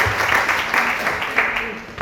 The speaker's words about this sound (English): Give them a round of applause, please.